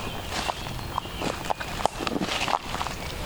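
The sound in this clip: Footsteps walking through a wildflower garden of wild geranium and woodland ferns: a handful of soft steps at an unhurried, even pace over a constant hiss of background noise.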